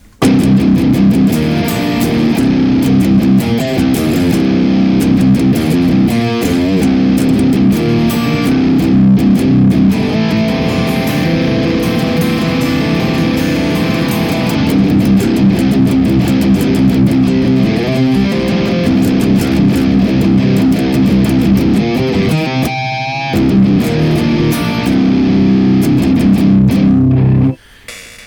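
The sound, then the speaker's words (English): Distorted electric guitar played through a Fortin Cali, a Klon overdrive, a Mesa amp and a Superbad amp into Greenback speakers: loud, continuous, heavily driven riffing with chugging rhythmic accents and one brief dip near the end. “The Fortin Cali running the Klon into the Mesa and the Superbad into the greenbacks sounds like this.”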